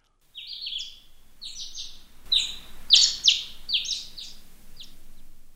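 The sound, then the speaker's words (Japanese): Birds sing outside the window of a guest room, a run of bright, high chirping phrases repeated throughout, some louder notes in the middle, with no voices. “ああ、鳥の声が聞こえますね。”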